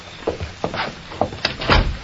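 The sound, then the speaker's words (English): A door being tried and opened at an office, heard as a few sharp clicks and knocks of the handle and latch, then a fuller, louder clatter as it gives way, with no talk. “I'll try the door. Go ahead.”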